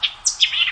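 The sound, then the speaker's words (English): A white-eyed vireo's song: a quick run of bright, high chirping notes in short sweeping phrases, clear and alone. “That's the song of the white-eyed vireo.”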